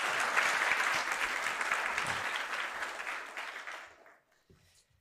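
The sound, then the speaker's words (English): A church audience applauds to welcome a new staff member, a dense, even burst of many hands clapping that gradually thins and dies away near the end, leaving quiet. “Just put our hands together. Thank you so much for that.”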